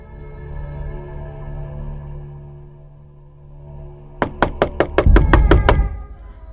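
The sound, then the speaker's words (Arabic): Sharp knocking on a door comes as a rapid burst of about nine loud raps in under two seconds, following a stretch of low, steady droning hum. “فقت على خبطة الباب والباب اتفتح”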